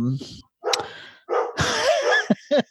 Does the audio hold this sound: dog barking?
yes